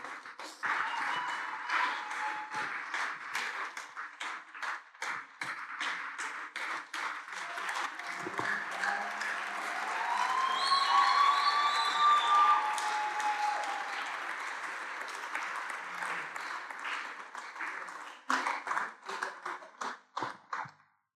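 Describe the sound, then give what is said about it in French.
Sustained applause from an audience welcoming a pastor, dense clapping that holds for most of the time and swells midway, then thins into scattered claps at the end. “sous vos applaudissements, s'il vous plaît, nous accueillons le pasteur André.”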